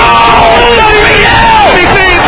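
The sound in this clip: A football crowd at a Mansfield Town match keeps up a loud, continuous roar beneath a commentator's excited talk.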